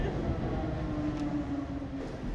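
A metro train rumbles through a subway station, a steady, continuous low roar with a faint sustained hum above it and no clear breaks.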